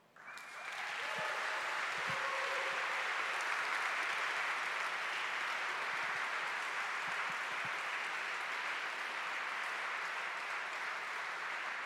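Applause from an audience welcoming a guest onto the stage: it swells within the first second into dense, steady clapping that holds at an even, loud level for about eleven seconds with no talk over it.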